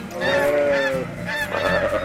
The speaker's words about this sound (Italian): E finalmente poi fuori dal bosco mi sono trovato circondato da un gregge di pecore e da un mucchio di anatre.